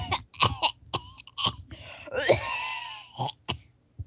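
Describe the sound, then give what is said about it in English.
Coughing and throat clearing after freeze-dried space ice cream went down the wrong way: many harsh, uneven bursts, with a strained, wheezy stretch in the middle. “Sorry, space ice cream went down wrong throat.”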